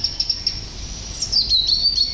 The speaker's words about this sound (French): dans l'arbre, le merle chantait, la fauvette chantait, le rouge-gorge chantait.